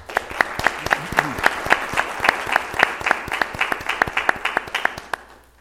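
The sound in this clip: Clapping welcomes a speaker to the stage. Sharp, evenly spaced claps run in a steady rhythm from start to finish and thin out toward the end.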